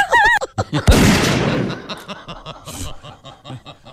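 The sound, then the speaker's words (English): A woman sings in an operatic style, a rendition of a rap song, with a wavering vibrato note. A sudden harsh, breathy burst follows as she vocally imitates being shot at the song's end, then softer broken vocal sounds trail off. “it sounds like she gets shot at the end. She makes the sound of being shot.”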